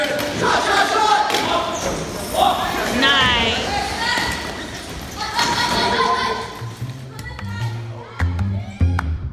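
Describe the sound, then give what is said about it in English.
Ball thumps and bounces in a wheelchair basketball game between a youth team and an adult team in Berkeley, with players' voices and court noise throughout and a few heavier low thuds near the end. “A player gets the rebound, dribbles through their defenders, and makes a pass, leading to an open shot.”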